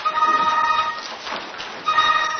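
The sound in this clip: A cell phone rings during a legislative committee hearing: a steady electronic ringtone sounds in two spells with a short stretch of rustling noise between them.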